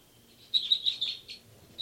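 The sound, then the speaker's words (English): Birds in a lab recording give a quick series of short, high-pitched chirps, soft but distinct against a quiet background, with one more chirp at the very end. “start recording now, birds 274 and 275, as well as birds 384 and 385.”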